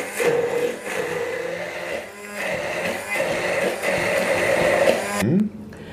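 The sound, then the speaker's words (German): An old hand blender purées food with a buzzing, whirring motor drone that wavers slightly in pitch and loudness, then cuts off abruptly near the end. “Damals nannte man den Zauberstab, als der war ganz neu, als der irgendwie auf den Markt kam und, ich hab, und der geht bis heute noch. Also mega begeistert. So, das heißt, das Ganze pürieren wir jetzt klein.”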